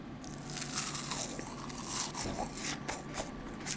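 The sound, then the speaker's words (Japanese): Crisp, brittle crunching comes from bites into whitebait and vegetable kakiage tempura made with carrot and burdock. A few faint crackling bites and chews are spread unevenly across the few seconds. “いろんなお野菜が一緒に揚げられています。いただいています。”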